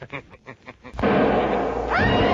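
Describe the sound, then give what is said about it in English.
A single gunshot in an old-time radio drama bursts in after a brief stretch of voice, then a loud, sustained roar of noise fills the rest of the moment. “They'd hear the shot. But that can't be helped.”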